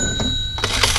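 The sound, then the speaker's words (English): A cash register sound effect, used to suggest money, makes a brief bright metallic ring with a clatter. It is dense and loud, with a couple of sharp hits within about a second. “And that is the sound of money.”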